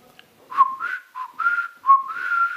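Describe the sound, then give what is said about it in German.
A person imitates someone whistling while walking through a room. The whistled tune is made of several bright, chirpy notes in short phrases, each swooping upward, and ends on a longer held note. “Die ging so pfeifend durch den Raum”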